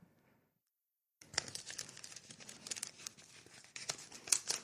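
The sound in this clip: A paper envelope holding a check is torn open. A brief hush gives way to continuous crinkling and tearing of paper, with sharp crackles that grow louder toward the end, fairly quiet overall and with no voices.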